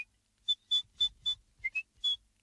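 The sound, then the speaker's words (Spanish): A person whistles in imitation of a bird's timid little whistle: seven short, high whistled notes in an uneven rhythm, two of them close together near the end, with no voice speaking. “¿Y el del tímido silbatillo?”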